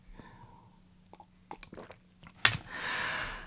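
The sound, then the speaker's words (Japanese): Sipping and swallowing water: a few soft, wet mouth clicks and gulps, then a longer breathy rush at the end, quiet and with no talk. “ちょっと待って、水飲んでいい”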